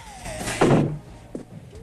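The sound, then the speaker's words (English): A bedroom door closing in an audio drama: one muffled, broad thud with a brief rattle, followed by a quieter knock. “He closes the door before Bill can protest.”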